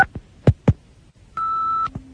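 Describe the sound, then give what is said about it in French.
An answering machine plays its tone before a message is left. A few sharp clicks come first, then a steady high beep lasts about half a second, then a faint lower tone follows. “je voulais laisser un message par l'intermédiaire de votre répondeur à monsieur Thierry Ardisson”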